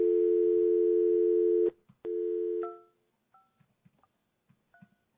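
Telephone dial tone as a call is placed: a steady, loud tone that breaks off once and resumes briefly, then fades into a few faint clicks and short quiet beeps.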